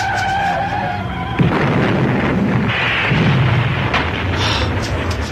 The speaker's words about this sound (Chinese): 架车撞咗埋喺山边，成架爆炸着火添。